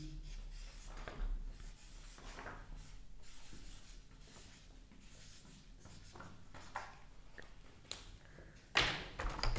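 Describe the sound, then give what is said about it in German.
Pen scratching across paper while drawing and writing: a long run of soft, rasping strokes in irregular bursts, some brief and some drawn out, staying fairly quiet throughout. “Schreibst du jetzt um oder was? Ja, ich male.”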